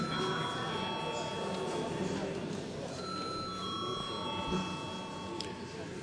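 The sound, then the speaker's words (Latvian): A bell rings continuously in a parliament chamber before a vote, its sustained, steady ringing lasting the whole time over a dense murmur of voices. “Paldies, lūdzu zvanu.”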